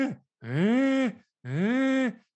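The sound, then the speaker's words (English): A human voice imitates bull elk making a cow-like moo: two long, loud, drawn-out lowing calls that rise slightly, hold, then drop off, each followed by a short pause. “these bull elk were talking to each other and kind of jockeying for position, but I kid you not, they were making this noise. Like, if you ever heard like a moo cow go like, you know,”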